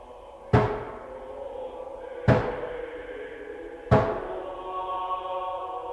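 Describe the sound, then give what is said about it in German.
Three slow, heavy knocks on a door, each a loud booming thud with a ringing tail that fades before the next, over faint steady background tones. “Wer klopft?”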